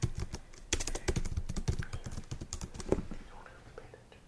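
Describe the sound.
Someone types on a computer keyboard in a faint, irregular run of many quick key clicks that thins out over the last second.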